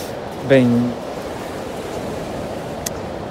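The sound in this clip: Sea waves as a steady, broad hiss of surf that holds at an even level throughout, with a brief tonal cry rising over it early on.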